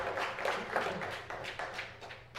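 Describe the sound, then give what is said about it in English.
Round of applause from a church Bible class after a reading, loose, uneven claps in several distinct bursts of moderate loudness rather than a dense, continuous roar. “Everybody give a round of applause.”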